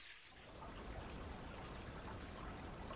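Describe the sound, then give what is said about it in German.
Water trickles inside a tree trunk, heard through earpieces pressed to the bark: a steady, continuous rushing hiss that stays even in level for the whole stretch, with no voices. “Ja, ich höre es wirklich plätschern, aus dem Baumstamm.”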